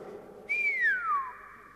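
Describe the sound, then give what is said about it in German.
An appreciative whistle from a person: one clear tone that starts high, holds briefly, then slides smoothly downward in pitch, heard alone without talk. “da lässt er die Luft entweichen in Form eines anerkennenden Pfiffes. Also ungefähr so.”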